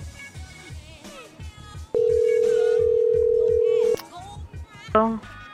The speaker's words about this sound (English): I think the phone got disconnected.